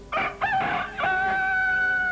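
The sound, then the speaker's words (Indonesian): A fighting rooster crows loudly and alone, with two short rising bursts leading into a long, strained, sustained final note that holds steady to the end. “Ketahuilah, sudah berapa ekor ayam jago saja yang telah dikalahkannya oleh ayam jagoku ini.”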